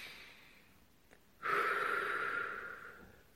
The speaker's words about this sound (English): stop and just take six deep breath through your belly. Breathe in.